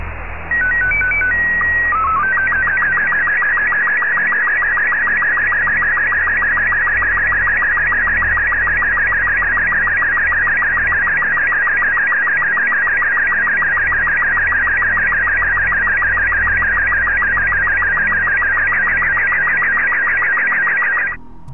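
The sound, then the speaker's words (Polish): Telephone line tones while a call connects: a few short electronic beeps at the start, then one long, steady, high-pitched tone that holds for about twenty seconds before cutting off. “Czuwający zaprasza Państwa na osobiste spotkanie. Proszę czekać na połączenie.”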